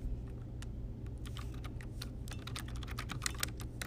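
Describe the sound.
Typing on a computer keyboard while building a website: a quick, uneven stream of many light keystroke clicks over a steady low background hum.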